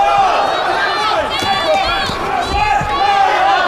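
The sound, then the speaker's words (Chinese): A fan club cheers on the player Zhu Shuai, a continuous loud crowd roar with shouting voices. A commentator talks over the cheering. “我们现场也有朱帅的粉丝团啊，在为朱帅加油助威。”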